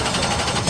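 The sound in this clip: A race car engine revs at full throttle at Fix It Forward Speedway in the Red River Valley. It makes a short, dense, buzzing roar that holds steady and swells louder at the very end.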